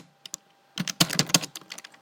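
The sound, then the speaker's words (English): Typing on a computer keyboard: a couple of isolated keystrokes, then a quick burst of crisp clicking keys, one after another. “Oops. My bad. Let's type this again.”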